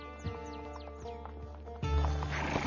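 Mule sounds from pack mules loaded with provisions: a few hoof clops over a steady low background, with a louder burst toward the end.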